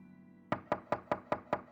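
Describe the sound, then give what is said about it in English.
Knocking on a garage door: seven sharp, evenly spaced raps in a quick, steady rhythm, loud and hard, following a faint low hum. “The knocking on the garage door jolted 7-year-old Clifford to attention.”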